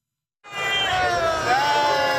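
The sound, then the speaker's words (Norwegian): Crowd cheering for the Norwegian cycling team Uno X in front of the Arc de Triomphe in Paris after the final Tour de France stage: a dense, loud roar that bursts in after a short silence and holds steady. “Det jubles for Uno X foran triumfbuen i Paris.”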